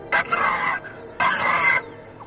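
Harsh crow caws as a radio drama sound effect for a ghostly crow, two drawn-out raspy calls with a short pause between them, loud and alone.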